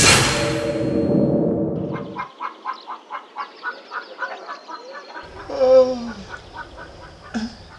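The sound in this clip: A hen clucking in many short, evenly spaced clucks, followed by a louder, drawn-out squawk and one more brief call at the end.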